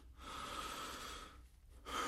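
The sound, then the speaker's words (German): Faint breathing from a man, one long drawn breath followed by a brief pause and the start of another breath, soft and airy with no voices. “Ich hörte ihn ein- und ausatmen und dann hörte ich lange nichts mehr.”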